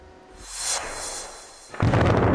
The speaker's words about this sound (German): In Förde am Niederrhein sind 3 Gebäude eines stillgelegten Kohlekraftwerks gesprengt worden. 30.000 Tonnen Stahl, ein Komplex so groß wie ein Fußballfeld, krachten zu Boden.